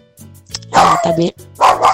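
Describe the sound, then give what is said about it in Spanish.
A small dog barks in a few sharp, yappy bursts, mixed with a person talking. “Mire que ahí el perrito está ladrando.”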